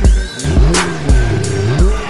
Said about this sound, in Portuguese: Do capô, senta a potência do motor.